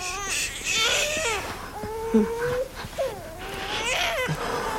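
A baby boy cries with a stomach ache, giving loud, continuous wavering wails with a clear tonal pitch that rises and falls between short catches of breath, alone without talk.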